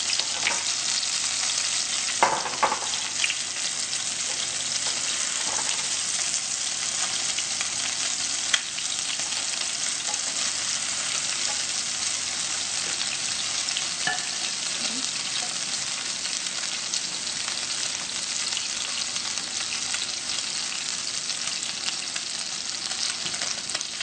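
French toast frying in a pan gives a steady, continuous sizzle with a few faint crackles and pops throughout, and no voices.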